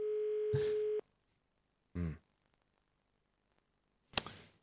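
A telephone dial tone sounds while someone places a call: a steady, even tone lasts about a second and then stops, followed after gaps of silence by two short, separate noises.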